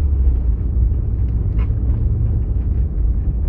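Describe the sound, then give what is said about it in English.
Steady low rumble of a car on a calm, smooth drive, a continuous even drone with no voices over it. “It's been uh, been very smooth. Very very very calm drive.”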